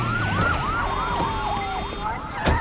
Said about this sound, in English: A squad car pulls up outside. Another squad car pulls up and a group of cops hurry over.